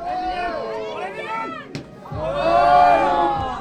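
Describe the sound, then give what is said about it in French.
Large crowd cheering at a rugby match: a continuous mass of shouting voices, broken by a sharp click midway, then swelling into a louder roar. “On voit que le public est nombreux.”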